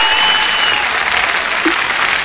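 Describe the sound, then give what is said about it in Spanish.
Applause fills the whole two seconds as a dense, steady wash of many hands clapping, fairly loud and with no voices over it. “Qué aplauso, Mauricio.”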